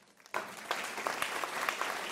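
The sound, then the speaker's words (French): A church audience breaks into applause after a brief hush. Dense clapping starts abruptly and continues at a steady, moderate level to the end, with a few sharper claps standing out. “vous avez bien raison d'applaudir Jésus parce que Jésus veut rejoindre les gens là où ils en sont.”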